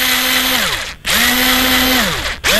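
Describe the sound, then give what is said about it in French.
Cordless power screwdriver running in short bursts, a steady buzzing motor whine that drops in pitch as each run winds down, then starts again, with no talk. “Une visseuse? Eh ben, tu sais quoi, c'est la bonne réponse.”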